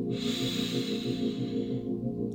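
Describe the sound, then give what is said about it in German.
A long, deep inhalation through the nose during a guided yoga relaxation, a steady airy hiss lasting about two seconds over soft sustained music, then fading out. “Atme mal einmal ganz tief durch die Nase ein, bis dein Herz, bis in deinem Kopf hoch, ganz tief.”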